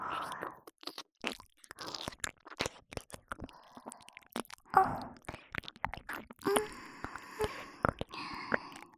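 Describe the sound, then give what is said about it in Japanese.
Soft, wet mouth sounds of lips gently nibbling an ear in ASMR: many faint, irregular smacks, clicks and small crunches with quiet breaths and sniffs between them. “唇で優しく噛んであげるね。”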